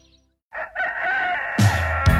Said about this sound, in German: Ich stehe morgens nicht mit dem Hahn auf